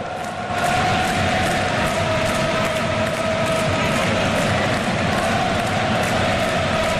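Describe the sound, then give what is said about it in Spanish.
Dutch fans cheering in a football stadium during a Netherlands versus Japan match, a dense, roaring wash of crowd noise that stays loud and constant throughout. “Escuchemos la voz del estadio. La voz del estadio.”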